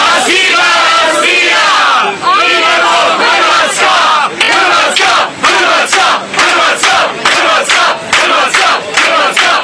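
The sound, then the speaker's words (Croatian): Croatian football fans sing loudly together on a plane to Moscow. A roaring massed song gives way to rhythmic chanted bursts separated by short regular breaks, all very loud and dense. “Grmjelo je od pjesme i u drugim navijačkim zrakoplovima.”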